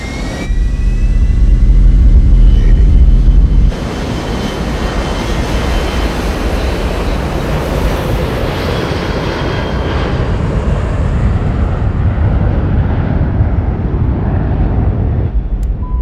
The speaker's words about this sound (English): got out on the tarmac with a couple of A320s, recorded all the exterior taxiing and all that